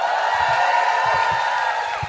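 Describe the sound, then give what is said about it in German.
A live audience in Hamburg cheers wildly in a steady, dense roar of voices and whoops that barely dips across the stretch. “Oh, ich sehe gerade Punkt 4b, Publikum rastet aus. Riesenapplaus.”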